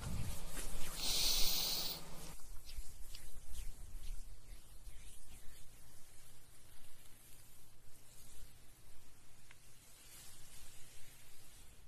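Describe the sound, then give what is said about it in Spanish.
A person takes a deep breath in through the nose during guided breathing, a loud breathy rush in the first two seconds, followed by a long, steady, soft hiss. “Vamos a inhalar paz, salud y amor.”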